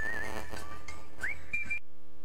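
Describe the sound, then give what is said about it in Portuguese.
A whistled ringtone from a mobile phone: a short melodic whistle that swoops upward near the end and holds a high note, heard over a low steady background sound, then stops abruptly. “É um celular que aqui me passaram, que só que é um assobio que toca no meio do programa”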